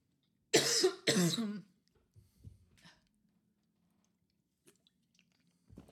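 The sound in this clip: Two sharp, loud coughs in quick succession come from a person with a tickle in the throat, followed by a few faint mouth and throat noises and then near silence.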